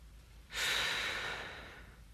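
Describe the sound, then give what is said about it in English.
A man breathing as a video ends: one long, soft, airy breath that rises suddenly out of near silence, then slowly fades over about a second and a half. “Then he breathed. I love the way that video ends.”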